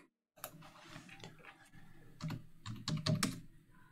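Typing on a computer keyboard while writing a chat message: a rapid, irregular run of many crisp plastic key clicks, with a few heavier strokes toward the end, and no talking.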